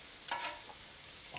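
A frozen steak sizzles in a frying pan with a quiet, steady crackle and a couple of brief stirring scrapes.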